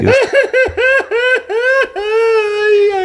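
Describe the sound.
A man cries loudly during a stage performance, a run of several short, exaggerated sobbing bursts that each arch in pitch, ending in one long sustained wail.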